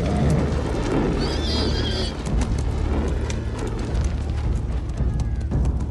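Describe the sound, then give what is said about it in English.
A horse's hooves clop as it is ridden up a small wooden bridge. The irregular footfalls sit within a dense, loud wash of continuous noise. “The king rides up a small wooden bridge.”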